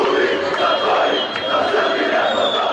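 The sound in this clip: Football fans chant after an Armenia versus Albania match. The crowd's voices merge into a loud, continuous, dense chant with no pauses.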